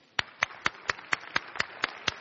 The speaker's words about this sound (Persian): ببخشیدشون، بذارین روح القدس به زیرشون، به زبانها دعا کنن. آمین. برای عربا یه دست بزنین.